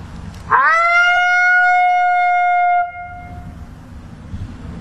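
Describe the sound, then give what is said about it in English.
A voice imitates a female wolf's lonesome howl, softer and higher pitched: one long tonal howl that rises quickly at the start, then holds a steady, slightly wavering pitch for about two seconds before cutting off into quiet. “I'll maybe go into just a lonesome howl. I can do maybe a female lonesome, so it's a little softer, a little higher pitch”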